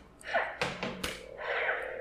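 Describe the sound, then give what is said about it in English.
A toy dueling lightsaber being banged: a few quick, dull knocks in close succession between softer, hissy electronic tones, all at low volume. “it's a dueling lightsaber, so you can bang, but it's delayed.”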